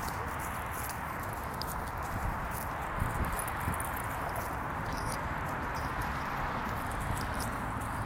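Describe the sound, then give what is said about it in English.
Footsteps crunching through a pile of dead leaves, a continuous dry rustle with scattered sharper crackles. “We're now walking in the one of the last dead leaf piles of the season.”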